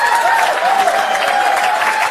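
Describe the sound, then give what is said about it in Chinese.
Audience applause: dense, even clapping that stays at a steady, fairly loud level throughout. “各位鼓掌。”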